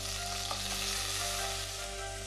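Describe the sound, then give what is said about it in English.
Giblets, turkey neck and tailpiece sauté in hot oil over medium heat in a stock pot for giblet gravy, giving a steady, dense sizzle and crackle that holds evenly for the whole stretch with no talk. “heat the oil over medium heat. Add the giblets, turkey neck, and turkey tailpiece. Sauté for about 5 minutes.”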